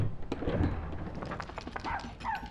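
A dog barks and yips faintly among a busy, noisy background, with several short bursts and a brief higher whine near the end.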